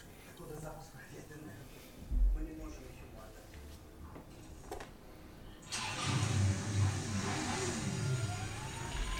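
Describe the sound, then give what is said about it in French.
A homemade chainsaw driven by a car engine and a large transmission chain starts up after a stretch of talk, then keeps running with a loud, rough, steady roar while people talk. “Oui, alors c'est une tronçonneuse, mais avec un moteur de bagnole.”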